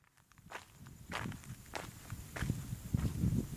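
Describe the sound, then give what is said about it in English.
Footsteps crunch across a dry, light chocolate-brown clay pan toward a spring. A steady series of gritty steps starts faint and grows louder and heavier. “I'm just walking across a big clay pen towards one of the springs. The ground is a kind of light chocolatey colour, and you can hear it crunching underfoot where it's dry.”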